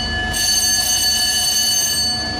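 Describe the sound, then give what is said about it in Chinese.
A battle alarm sounds aboard a coast guard ship during a law-enforcement drill: a loud, continuous, piercing tone that holds steady and unbroken throughout. “清晨，随着急促的战斗警报拉响”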